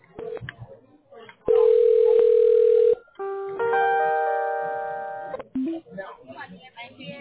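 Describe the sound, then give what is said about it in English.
A telephone is dialed: short beeps come first, then a steady line tone of about a second and a half, then a longer layered multi-tone signal that fades slowly, with more brief beeps at the end. People talk around the tones. “Bear with me, please. You will hear me dialing.”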